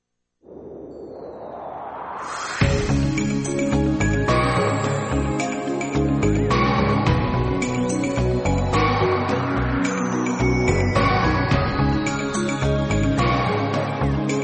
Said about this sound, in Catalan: I quan sona aquesta sintonia és el moment de connectar amb el Servei Meteorològic del Maresme.